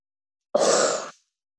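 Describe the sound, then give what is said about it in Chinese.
A single airy breath from a breathing exercise of inhaling through the nose and exhaling through the mouth: one soft, hissing whoosh of about half a second, heard alone against silence. “这样重复三遍，用鼻子吸气，用嘴吐气，”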